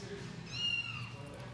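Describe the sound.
Mobile phone ringtone that imitates a meowing cat, one drawn-out, faint meow with a harmonic, tonal quality over low background hum.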